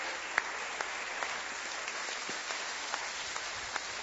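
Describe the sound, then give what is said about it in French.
Faint, steady applause from a church audience acclaiming the word of God, a soft, even wash of clapping with a few sharper claps standing out at intervals. “Gloire au Seigneur, nous allons acclamer la parole de Dieu.”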